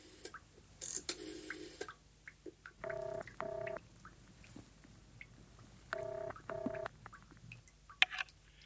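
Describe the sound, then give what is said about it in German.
Touch-tone telephone dialing in a hotel: four short, equal beeps come in two pairs separated by a pause, over a quiet background with a few faint clicks. “angelte mir das Telefonbuch, suchte eine Nummer und wählte.”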